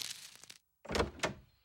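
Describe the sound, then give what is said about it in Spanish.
A door is opened in a cartoon: a soft rattle, a short silence, then two clunking knocks in quick succession. “¡Que alguien abra la puerta! ¡Ya voy!”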